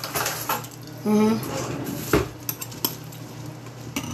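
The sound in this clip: Cutlery and dishes clatter as someone fetches a spoon, giving many sharp metallic clinks and scrapes, with a short tonal sound near the start and a voice in the background.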